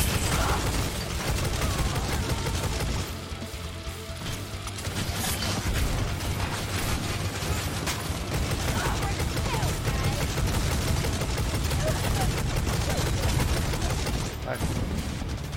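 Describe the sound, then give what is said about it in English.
Grenade launchers fire in a video game battle, making a loud, continuous barrage of overlapping blasts and shots with no clear gaps throughout. “God damn, how many grenade launchers do they got?”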